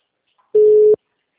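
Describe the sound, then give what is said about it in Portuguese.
Telephone busy tone after a dropped call: one short, steady, mid-pitched beep that sounds alone and stops abruptly. “a ligação caiu? Eu tava falando com ele. Aí ele foi verificar. Só que agora tá tum. Desliga.”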